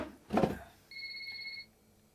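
A telephone rings as an unknown caller comes through: a faint, short electronic two-tone ring follows a brief low thump.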